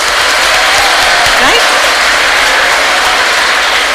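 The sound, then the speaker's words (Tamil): An audience clapping their hands: dense, continuous applause fills the whole clip at a loud, even level, with a faint voice briefly audible beneath it. “நமக்காக ஒரு தடவை நம்ம கை தட்டிக்கலாம்.”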